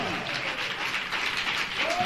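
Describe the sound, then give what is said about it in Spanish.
A church audience claps during an evangelical service, producing a steady wash of many hands with voices audible above it, especially toward the end. “Y si la palabra le llegó, dele palmas a Dios en esta noche.”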